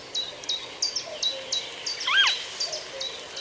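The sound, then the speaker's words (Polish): A western marsh harrier gives a single quick, modulated call with a falling pitch, set against a rapid, regular series of thin, high insect-like chirps that run through the whole clip. “Głos błotniaka stawowego to pojedyncza, szybka, modulowana sylaba, zbliżona nieco do głosu czajki.”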